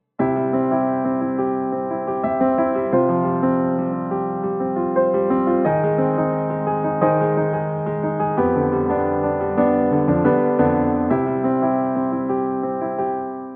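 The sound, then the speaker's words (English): A progression of five sustained chords: C, F, A flat as the chromatic mediant of F, then a half-step drop to G acting as a tritone substitute, and back to C. Each chord holds for a few seconds at an even, loud level. “What you heard was C going to F and then A flat, which is the chromatic mediant of F, that in turn resolves a half step down to G as a tritone substitute, and finally G goes back to C.”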